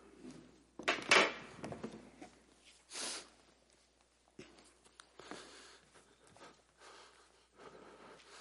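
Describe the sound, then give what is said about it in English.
An audience opening Bibles and turning pages, heard as a few soft rustling and shuffling bursts with quiet gaps between them. “Would you please open your Bibles to 1 Timothy? How about 2 Timothy chapter 4?”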